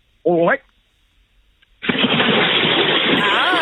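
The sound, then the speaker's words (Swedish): A sudden splash of someone plunging into water for a swim at Fäboden, Jämtland, followed by loud, sustained churning and rushing water until the end. A short voiced sound comes before it, after a near-silent gap. “Så ska det låta. Så där låter ett bad.”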